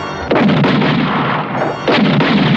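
A volley of gunfire is fired at prisoners as a radio drama effect: two loud, sustained bursts of massed shots separated by a short lull.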